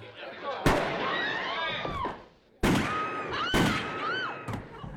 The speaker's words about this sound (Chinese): 老亨利眼看着自己竟然被人背叛，立马掏出手枪打死了男主。